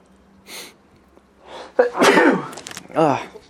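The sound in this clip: A person sneezes with a sharp, loud, noisy burst, surrounded by short breathy sounds and brief vocal noises before and after.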